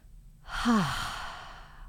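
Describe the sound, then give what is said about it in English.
A single deep clearing exhale through the mouth, taken after a belly breath: a soft breathy sigh that starts after a brief pause, swells, then slowly trails off. “take a deep breath in, clearing breath in into your belly if you can, and exhale through your mouth.”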